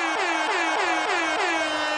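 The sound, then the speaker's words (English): Air horn blasting at an election party celebrating a Democratic Socialist upset win: loud, continuous, blaring honks repeated in quick succession, each sliding slightly downward in pitch, with no talk over them. “Someone pounds an air horn.”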